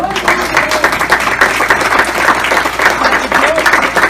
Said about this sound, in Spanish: Así que vamos a dar un aplauso a nuestros actores.